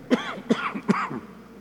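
Three short, harsh coughs from a person with bronchitis, evenly spaced and fairly quiet, each with a rough, throaty rasp, then a brief lull.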